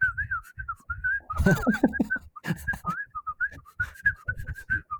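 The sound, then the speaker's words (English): Tuneless, atonal whistling with no melody: a thin, wavering tone wanders around one pitch in short, broken phrases with small gaps between them. “she would whistle like the most like atonal and least like no melody to it whatsoever”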